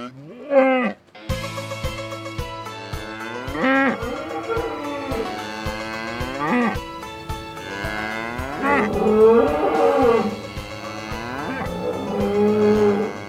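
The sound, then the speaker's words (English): Cattle mooing at a rodeo at the Cow Palace: many long, loud, overlapping moos follow one another almost continuously, rising and falling in pitch over a low steady drone. “Those sounds were recorded at the Grand National Rodeo held at the Cow Palace.”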